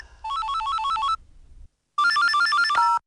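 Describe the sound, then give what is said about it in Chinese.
An electronic telephone ringtone plays alone in two loud bursts of a bright, repeating melodic pattern, separated by a short silent pause. “迷迷糊糊的建平正在家睡觉呢，电话响”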